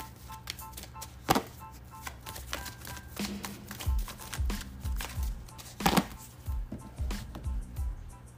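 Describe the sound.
Tarot cards being shuffled and drawn, heard as a faint, steady run of many soft papery flicks and taps with a few sharper snaps, and no talk.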